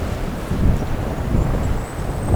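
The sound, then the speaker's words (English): Wind buffeting the microphone on a gusty day, a low rumbling roar that swells and eases in loudness. “It's pretty windy.”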